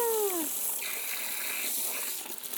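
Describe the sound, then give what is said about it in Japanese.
Hot water rinsing shampoo out of hair: a steady, soft rushing hiss of flowing water with faint splashy texture, holding an even level throughout. “はーい、そろそろお湯で流しますよ。”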